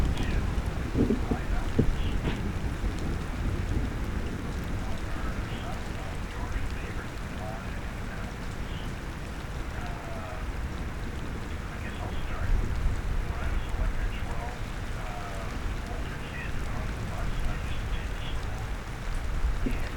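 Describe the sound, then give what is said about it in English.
A thunderstorm with rain: a deep, rolling rumble runs continuously beneath a steady hiss of rain and wind, swelling slightly partway through. “Now that's some good thunder right there.”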